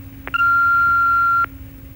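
A single answering machine beep sounds after a recorded greeting. The steady, high-pitched tone is loud and lasts about one second over a faint background hum.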